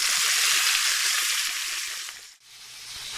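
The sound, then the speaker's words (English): Salmon sizzles in a frying pan, a steady bright hiss that dips briefly and then carries on a little quieter. “While the salmon is cooking”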